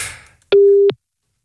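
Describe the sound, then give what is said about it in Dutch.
A telephone busy signal sounds after the other caller has hung up: a single steady mid-pitched tone lasting under half a second, heard alone after a brief fading hiss, then silence. “heeft Reinie nou opgehangen? Ik ga het gewoon opnieuw proberen.”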